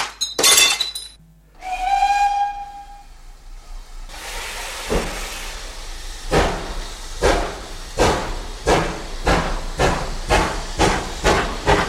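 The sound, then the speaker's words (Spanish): A glass bottle smashes with a sharp, bright crash, followed by a held steam whistle and then the hiss and steady rhythmic chuffing of a departing steam locomotive. “rompe la botella y da el pito de salida”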